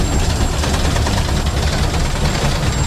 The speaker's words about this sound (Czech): Poprvé v životě jedu parní lokomotivou hned vedle strojvedoucího